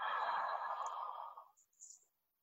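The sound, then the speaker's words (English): Deep inhale through the mouth during a guided breathing exercise: a steady, breathy rush of air lasting about a second and a half, then fading, with a couple of faint soft traces after it. No talking. “Lift your hands and inhale. So your head and your hands will go up. Inhale through your mouth.”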